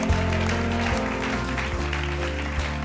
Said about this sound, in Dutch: Can we give him a great big hand? Kunnen we een applaus geven?